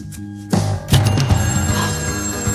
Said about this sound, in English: the phone rang a third time